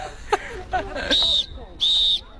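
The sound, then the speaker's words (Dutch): Two sustained, high-pitched whistle blasts of similar length sound at a recreational korfball tournament in Apeldoorn. Brief voices and knocks come before them. “een fluitje hebben ze nog wel, maar daar houdt het dan ook mee op bij dit toernooi in Apeldoorn”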